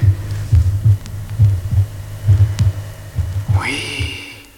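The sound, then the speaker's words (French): Heartbeat with the mitral valves clicking shut, picked up at the left fifth intercostal space: a steady series of low, muffled thumps in a regular rhythm over a faint background hum. “Oh, je perçois très distinctement le claquement de fermeture des valvules mitrales.”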